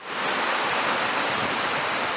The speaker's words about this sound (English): Water is rushing into a storage basin outside of Tucson, Arizona, spilling out onto the cracked desert.